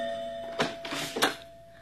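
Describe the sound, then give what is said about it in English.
A doorbell ringing at home: sustained, bright chime tones ring throughout, with a few brief louder strikes in the middle before the ringing fades. “I was at home when my doorbell rang.”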